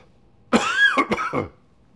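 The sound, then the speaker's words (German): Coughing fit from someone whose talking keeps setting off the cough: a rough, voiced burst of several quick hacks packed into about a second, standing alone against near-silence. “sonst geht das hier gleich wieder fürchterlich los mit der Husterei. Entschuldigung, aber ich merke, so viel reden, das klappt noch nicht so gut.”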